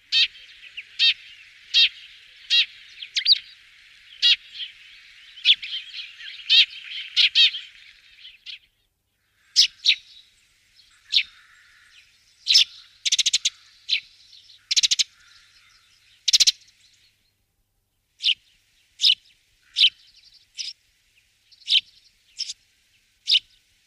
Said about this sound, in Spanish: gorrión molinero.